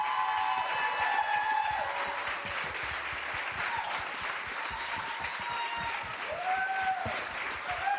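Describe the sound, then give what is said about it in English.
An audience applauds as actor Brian Austin Green comes on stage, a steady, dense clatter of clapping with scattered cheers and whoops riding over it. “Please put your hands together for Mr. Brian Austin Green.”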